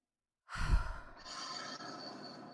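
A deep breath, one long airy rush of air after a moment of silence, soft and steady for about two seconds with no talking.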